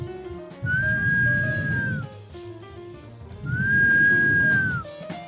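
Whistling: two long, level, high-pitched notes, each held for over a second with a slight drop at the end, separated by a pause, over a low rumbling background.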